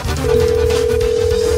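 A telephone line tone sounds as a call is dialed. One steady electronic tone starts just after the beginning and holds unchanged to the end over a busy low background.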